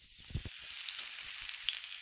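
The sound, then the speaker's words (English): Lamb kofta dusted with flour fry in hot oil with a steady, bright sizzle, fine crackles and spits running throughout, and a few soft low bubbling pops early on. “I've made the lamb mixture for the kofta. Put all the spices in it, dusted them with a little bit of flour, and now I'm going to fry them in some hot oil.”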